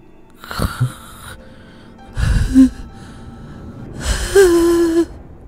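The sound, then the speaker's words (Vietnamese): A man's voice imitates an asthmatic wheezing hiss with the mouth gaping: three breathy, rasping gasps separated by short pauses, the last one longer and carrying a strained, moaning tone. “Lão rít như là người bị hen suyễn, mồm của lão há hốc cả ra.”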